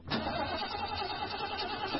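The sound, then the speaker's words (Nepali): Car engine stalling on a car whose battery was replaced less than ten days earlier: a rough, mid-pitched churning with a few small surges, steady and moderately loud, with no voices. “होइन के भयो, किन बन्द भएको हो गाडी? Battery फेरेको 10 दिन पनि भएको छैन, कति छिटो बिग्रिएको हो, बन्द भएको हो भैछ।”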